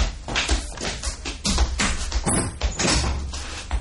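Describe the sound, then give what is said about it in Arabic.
A door being opened at night in a household drama scene, heard as a busy run of rattling knocks and clatters at moderate loudness. “افتحي الباب يا فريده. اكيد نامت، انا حقوم افتح.”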